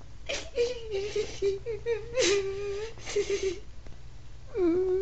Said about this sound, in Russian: Мальчик, здравствуйте. Почему вы плачете?